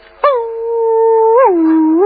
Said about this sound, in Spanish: En cuanto al aullido,